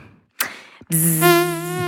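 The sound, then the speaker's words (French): A person's voice imitates the whine of a tiger mosquito, making a steady, nasal, high buzz held for about a second after a short burst of noise. “Vous faites bien le moustique.”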